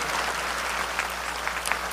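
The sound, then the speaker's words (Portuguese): Applause from a church audience at a sanctuary, a dense, steady wash of many hands clapping at an even level for the whole stretch. “Levanta o braço, vamos dar uma salva de palmas para este povo.”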